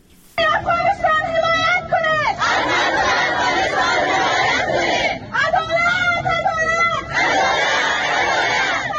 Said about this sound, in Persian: این صدای اعتراض زنان افغان است که پس از حاکمیت دوباره طالبان به پاکستان مهاجر شدند.